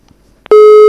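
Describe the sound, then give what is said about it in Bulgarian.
A telephone sounds with a loud, steady electronic tone that starts abruptly about halfway through and holds at one pitch, after a few faint clicks. “Звъни.”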